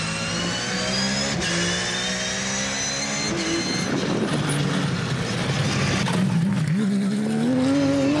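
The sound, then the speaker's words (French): A very low car accelerates hard out of corners through small chicanes, its loud engine revving in a continuous roar whose pitch repeatedly climbs and drops back as it pulls through the gears. “la voiture est très très basse. Et comment ça ressort des virages, c'est un missile.”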